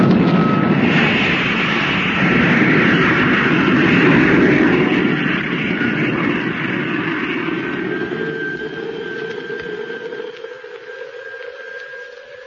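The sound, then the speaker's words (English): A rocket motor fires for descent with a loud, steady roar that keeps rushing for many seconds. A thin high whine sits above it as the roar slowly thins toward the end. “Motor about to be fired for descent. Are you ready? Ready. Firing in 5 seconds from now. 4, 3, 2, 1, contact!”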